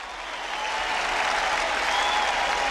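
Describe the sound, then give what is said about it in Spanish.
Audience applause welcoming the guitarist of the band Batacazo as a guest, a dense, steady wash of clapping that swells slightly in the first half second and then holds loud and even throughout, with no voices standing out. “Un fuerte aplauso para el gran Danielón.”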